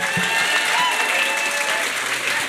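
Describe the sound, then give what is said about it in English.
Enthusiastic audience applause at the Science Festival in Cork: a dense, steady wash of many hands clapping, loud and unbroken for the whole stretch. “Can we please give a large round of applause to our amazing guests?”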